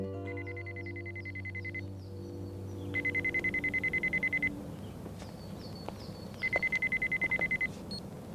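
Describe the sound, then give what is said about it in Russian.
A mobile phone rings beside a parked car in three bursts of rapid, high, warbling electronic tone separated by short pauses, with low sustained tones beneath the opening burst. “У Димы звонит телефон.”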